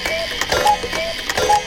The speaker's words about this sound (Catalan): No, però primer que soni el cucut, ara.